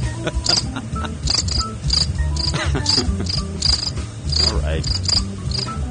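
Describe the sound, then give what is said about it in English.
Crickets chirp steadily in a dense, high, pulsing trill over a low, rumbling background that runs throughout. “We were hearing nothing, slow motion, and then crickets.”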